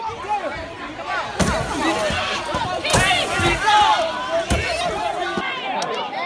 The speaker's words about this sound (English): Early this morning, this was the sound of a riot in northern Memphis.